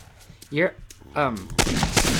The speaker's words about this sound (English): I think we'll go with a shotgun. The AA-12 shotgun.